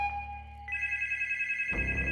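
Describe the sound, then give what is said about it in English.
Telephone ringing: a steady electronic ring made of bright, sustained high tones that step higher partway through, then turn denser and busier toward the end, heard alone without voices. “The phone rang again.”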